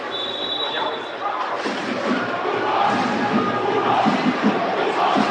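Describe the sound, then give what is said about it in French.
Rouen football supporters cheering and chanting in the stadium during a match against Stade Lavallois, a continuous crowd roar that swells slightly, with people talking over it. “Et là, ce sont les Rouennais que l'on entend sur notre droite.”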